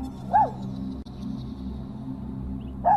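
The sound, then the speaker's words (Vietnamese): A dog whimpering: two short, high, wavering whines, one near the start and one at the very end, with a low steady background hum between them. “Ở sau lưng, con chó không còn chu lên, nhưng Long vẫn cứ nghe thấy nó rên ư ử.”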